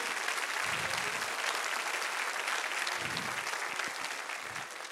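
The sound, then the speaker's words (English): Dense applause from a church audience for its worship team, a steady, even wash of clapping that holds level and eases off slightly at the end. “Thank God at the Palace of Praise we have pure worship. Can you give our team a great big hand of appreciation?”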